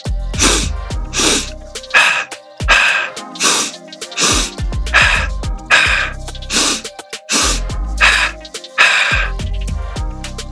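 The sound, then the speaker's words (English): Forceful, audible breathing in a four-part pattern, two inhales through the nose and two exhales from the mouth, repeated as many sharp, loud bursts with short pauses between rounds and no talking. “a four-part breath. Two inhales in through the nose, two exhales from the mouth. It sounds kind of like this.”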